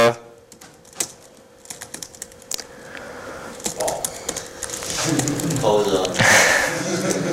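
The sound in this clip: Keyboard typing while a small C program is written: irregular clicking keystrokes of varying loudness, sparse at first and then merging into a denser, noisier stretch.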